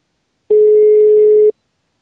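A single steady telephone tone sounds as a call is placed, a loud, pure mid-pitched beep lasting about one second with silence before and after.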